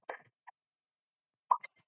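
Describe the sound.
A Facebook notification sound: a few short, soft pops spaced across two seconds of otherwise near silence.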